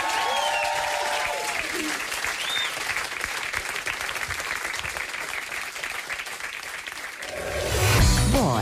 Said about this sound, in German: Dankeschön. Das ist euer Applaus.